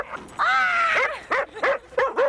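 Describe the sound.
A dog gives a drawn-out, whiny yelp that breaks into a few short, yippy barks, loud and close together, with no voices.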